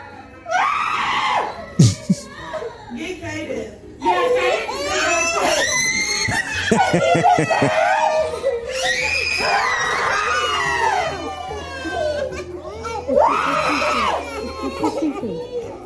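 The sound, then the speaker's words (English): Children scream and cry in a daycare classroom: loud, high-pitched wails and shrieks overlap almost without a break, with a few sharp bursts standing out from the continuous din. “Let's listen to the daycare center freak out.”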